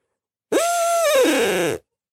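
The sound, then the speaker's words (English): A hunter's voice imitates an owl with a single drawn-out hoot through cupped hands, a steady tone lasting over a second that dips slightly in pitch near its end and then stops. “When you hear an owl way off, you start hooting. But I never hoot the 8-note cymbal instantly when I go in the woods. I just do a single note and it sounds like this.”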